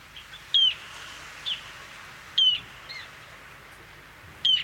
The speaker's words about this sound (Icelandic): Hljóðið í þessum fugli er svona.